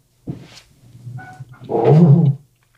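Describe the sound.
A person's voice imitates a zombie growl: a few brief grunting sounds, then one loud, low, rasping growl of about half a second that cuts off abruptly.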